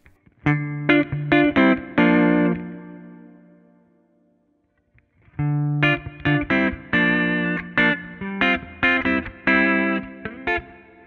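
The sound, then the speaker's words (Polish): Electric guitar through an amplifier in jazz mode with the knobs set at 12, giving a throaty, mid-heavy tone; two phrases of chords and notes separated by a pause of silence. “Zobaczcie, to jest rock. A to jest jazz. Damy gałki na 12. Taki gardłowy dźwięk.”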